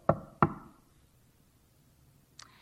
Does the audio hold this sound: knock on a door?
yes